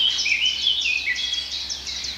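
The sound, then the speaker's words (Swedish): Calls of a great spotted woodpecker: a run of high, thin, sharp chirping notes repeated quickly, faint and heard alone. “hackspettar på lite håll. En stor hackspett som kommer.”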